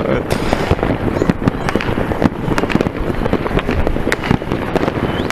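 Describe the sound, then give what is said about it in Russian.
A fireworks display going off: dense, loud bangs and crackling bursts follow one another without pause, over a continuous roar of explosions, with voices mixed in. “Салютов реально до хрена в данных местах. И везде, блин, салюты красивые.”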